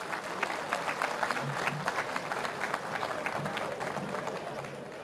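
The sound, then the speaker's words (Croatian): Audience applause at a traditional ojkača folk singing evening, for a group of young singers. A dense, steady patter of many hands clapping holds for several seconds, then eases slightly toward the end. “Molim da još jednom pozdravite aplauzom naše najmlađe ojkače.”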